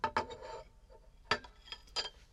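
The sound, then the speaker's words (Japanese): A plate of apples set down on a table gives a few light ceramic clinks and knocks. The short, quiet taps are separated by pauses. “リンゴはお皿の上に置いて、よいしょと”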